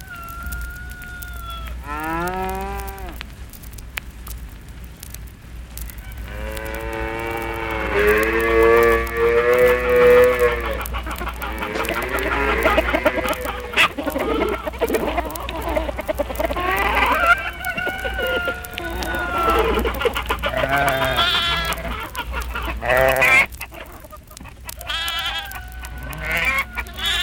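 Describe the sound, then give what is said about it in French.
Farmyard chorus of chickens clucking and a rooster crowing, mixed with cattle mooing, with many overlapping calls throughout and no speech. “Maintenant voilà une ferme qui se profile avec ses odeurs de paille, de cuir et de fumier. Mais Ludwig Kor, lui, ce sont moins les odeurs qu'il veut nous faire remarquer que les sons.”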